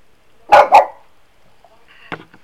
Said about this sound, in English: got the dog jumping at shadows. Got a reflection of the door.